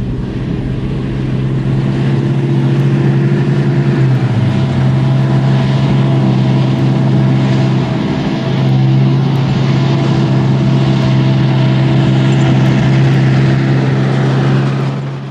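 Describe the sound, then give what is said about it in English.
Large grey garbage truck trundling up the brow of a hill on a suburban residential street in early morning: a loud, steady low engine drone that dips slightly in pitch partway through, then settles back. “A large grey garbage truck trundles up the brow of a hill on a suburban residential”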